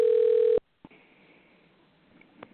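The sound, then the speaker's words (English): A telephone ringback tone on an outgoing call: one loud, steady tone that cuts off sharply, followed by quiet line hiss and a couple of clicks. “Hopefully, this person will answer the phone.”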